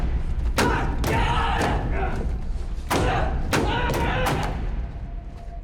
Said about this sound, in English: He struggles to open a vault-style door.